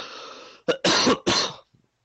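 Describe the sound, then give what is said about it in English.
Three harsh human coughs in quick succession, loud and alone, preceded by a breathy rush of air and followed by a faint trailing sound. “brief cough break”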